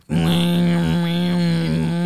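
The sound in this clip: An amateur attempt at Tuvan throat singing: one loud, steady, droning low voiced tone held for about two seconds, with overtones that shift above it.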